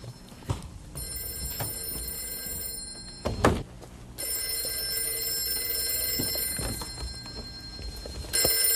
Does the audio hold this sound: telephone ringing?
yes